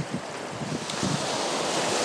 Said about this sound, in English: Oh, some waves. Waves are about 2 foot high. No joke, 2 foot. You hear them breaking just in front of me.